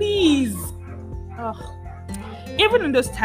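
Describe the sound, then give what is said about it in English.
A dog barks and yips in a few sharp bursts, with whimper-like, falling cries at the start and a louder run of yelps near the end. “this dog decides to make noise again, they upset me so much.”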